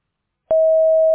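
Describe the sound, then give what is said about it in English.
A voicemail system sounds its recording tone. A single steady beep starts abruptly after a short silence and holds at one even, mid pitch. “Record your message at the tone. Press any key or stop talking to end the recording.”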